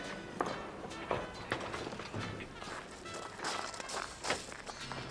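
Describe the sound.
Quiet footsteps follow someone cautiously over toward a grill: a few soft, irregular steps over a faint background.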